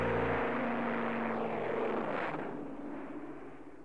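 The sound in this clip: An airplane taking off from a runway, a loud broad engine roar with low droning tones underneath that gradually thins and fades toward the end.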